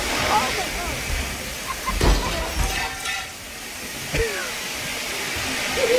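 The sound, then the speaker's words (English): A huge gush of water from a broken commercial sprinkler head: a loud, continuous rushing hiss fills the whole clip, with people talking over it. “That is so much water. It's a ton. That is so much water. It's not like a sprinkle. It's a huge gush. Like because she broke the sprinkler head. It's like the commercial sprinkler system.”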